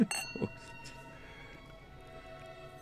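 Glasses clinking in a toast: two bright clinks in quick succession, followed by a faint ringing tone that lingers and fades.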